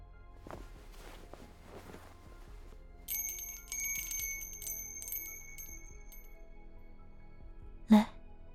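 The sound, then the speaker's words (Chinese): A small bell rings in a bright, shimmering jingle for a couple of seconds as accompaniment. Faint footsteps come before it. “不如用这铃铛来伴奏吧。”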